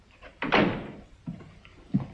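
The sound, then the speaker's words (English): A door being shut: one solid thump with a brief rattling tail, then two softer knocks a moment apart, with no voices. “Brad walks out, and Gordon shuts the door.”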